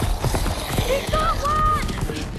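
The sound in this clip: Horse hooves clip-clop as a horse is ridden through a dark forest during a fantasy chase, with quick clattering beats under busy action noise and high whining tones.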